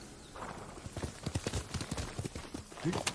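Horse hooves clip-clop in a video game: a quick, steady run of many sharp hoofbeats at an even rhythm throughout, fairly loud and alone.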